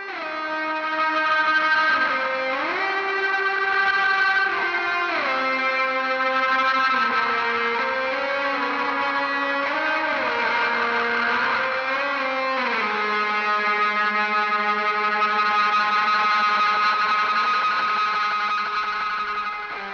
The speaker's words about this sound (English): we just had a delay pedal. And on a delay pedal, if you crank the feedback knob or you crank the time of the repeats, you'll get like a feedback oscillation thing that does all kinds of weird outer space kinds of sounds.